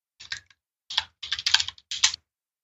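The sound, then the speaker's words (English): Clicky computer keyboard typing comes in four quick bursts of keystrokes separated by brief pauses, as a search for mercury dentistry is entered. “I'm just going to type in mercury dentistry.”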